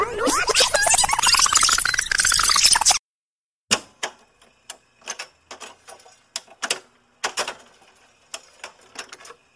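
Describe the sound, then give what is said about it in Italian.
A cassette tape is wound back by turning its spool with a pencil. A few seconds of dense, shifting noise cut off, then comes a short silence, then many irregular plastic clicks and rattles, some in quick clusters. “prendo la mia matitina e riavvolgo il nastro”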